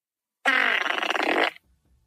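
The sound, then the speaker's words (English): A single buzzing fart sound effect from the iFart app, about one second long, sounds alone and loud with a rough, rattling texture. “Jimmy Kimmel did a segment where he introduced kids to the iFart app on his show, and he played the Kimmel, which actually sounds like this.”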